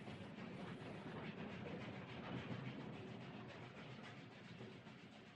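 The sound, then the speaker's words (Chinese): Train wheels clatter on the rails at night in a steady, low, continuous rumble with a faint rhythmic clack, heard alone and fairly quiet throughout. “车窗外的电线杆一根根有节奏地划破夜空，倏地从视线里掠过，向后移去。车轮撞击铁轨的声音，此时也显得和谐。”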